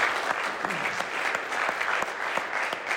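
Full, steady applause from a church audience thanking a staff member at a meeting, even in intensity throughout.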